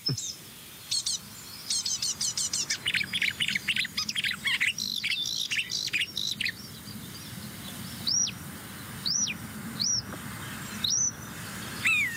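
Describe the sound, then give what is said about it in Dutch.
Birdsong from a great tit and a blackbird, with calls from a fledged great tit chick: busy, high twittering in the first half, then a handful of clear, separate chirps spaced about a second apart. “Koolmees. Merel weer. Koolmees en een uitgevlogen jong van een koolmees.”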